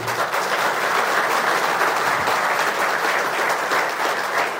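Audience applause fills the whole moment with dense, even clapping from many hands, sustained at a steady loud level without pause.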